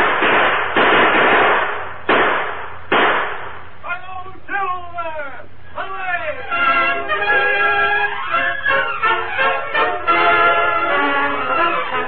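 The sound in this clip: Sharp gunshot bangs crack out in a western radio drama, a few loud separate blasts in quick succession, followed by excited men's voices shouting over one another.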